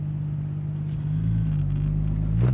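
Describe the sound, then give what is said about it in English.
Steady low engine rumble from a car being driven in traffic, a continuous deep hum that swells slightly in places, with no voices. “I'm also going to have to pay attention to my driving because people are staring at me and I'm trying to have somebody let me in.”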